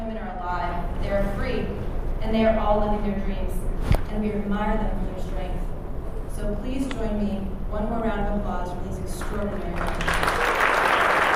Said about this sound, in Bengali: যুক্তরাষ্ট্রের পররাষ্ট্র মন্ত্রণালয়ে রুম ভর্তি অতিথিদের সামনে এভাবেই তুমুল করতালির মধ্য দিয়ে মঞ্চে আসেন বিশ্বের 10 সাহসী নারী